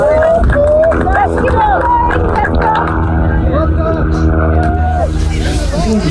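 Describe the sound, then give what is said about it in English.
A loud, continuous carnival din at the Lewa Safari Marathon finish line in Kenya: dense crowd babble mixed with sustained tonal sounds that never let up. “Well, I'm on the finishing line now where there is nothing short of a carnival atmosphere going on. We've tried to find a quiet corner, but it's pretty much impossible. I'm sure you can hear the music in the background.”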